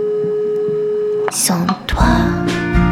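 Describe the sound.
A telephone tone sounds after a call is cut off, a steady single pitch held for just over a second before voices and music cover it.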